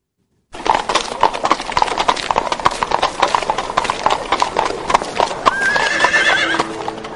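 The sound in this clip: Hooves clip-clopping from a horse-drawn carriage arriving at the crowded Zhuque Gate, with steady, even hoofbeats throughout and a horse's high whinny rising near the end.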